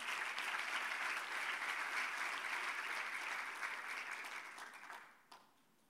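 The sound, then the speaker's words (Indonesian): Church audience applauding during a sermon: dense, sustained clapping from many people holds evenly for about five seconds, then thins out and stops after a last few claps. “Yang yakin itu berikan tepuk tangan bagi Tuhan kita Yesus.”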